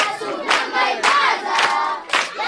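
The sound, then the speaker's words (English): Sudanese children at the Meche refugee camp in eastern Chad sing boisterously in chorus, loud group voices rising in repeated bursts of shouted, chant-like phrases. “The boisterous singing of Sudanese children living at the Meche refugee camp in eastern Chad belies the horrors of war that they witnessed in the Darfur region.”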